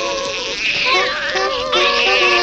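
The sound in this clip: A young boy cries in a film scene, a high, wavering sob with trembling harmonics that rises and falls over a couple of seconds.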